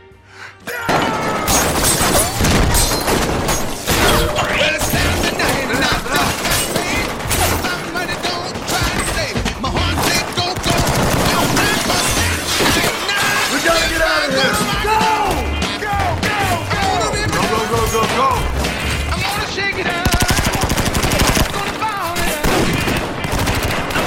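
Gunfire during an ambush: dense, loud bursts of shots and rapid machine-gun fire that continue almost without a break for the whole stretch.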